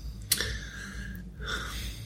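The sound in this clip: A person snorts quietly through the nose: two short, breathy huffs with a brief pause between them, and no one talking.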